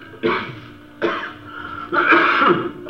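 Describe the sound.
Someone clears their throat three times in rough, gravelly bursts, the third longer and harsher than the first two, with no speech.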